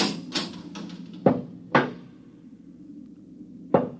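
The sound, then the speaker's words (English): A lock being worked open on a door: a few light clicks, then two sharp metallic clunks in quick succession, and after a quiet pause of about two seconds one final clunk. “Quiet. I think they're opening the lock.”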